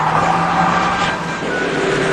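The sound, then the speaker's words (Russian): Loud, steady engine roar of a truck speeding toward a traffic police post where an officer waves a baton. The sound stays sustained and even for the whole clip, with no voices. “На посту сотрудница ГАИ машет жезлом. Грузовик сбивает ее.”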